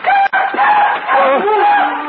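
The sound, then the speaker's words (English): A night bird calls with a long, loud, wavering harmonic cry that lasts about two seconds. A brief break comes near the start, and the tone dips and bends toward the end. “It's just another night bird”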